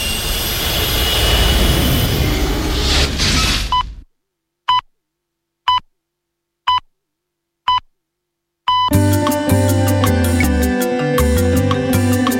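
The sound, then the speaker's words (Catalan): A spaceship takes off with a loud, broad jet-like roar that cuts off abruptly. Four short, evenly spaced electronic beeps follow in silence, then music begins. “Pugeu a la nau i cordeu-vos dels cinturons. Doncs tornem al planeta Terra.”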